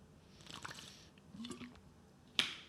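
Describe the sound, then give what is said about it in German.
A quiet sip of a Strong and Pink Essentials drink: a few soft, wet mouth and liquid sounds, then a sharp, bright click near the end. “macht euch wie ich ein Strong und Pink Essentials, wenn ihr Bock habt. Darauf erstmal einen Schluck.”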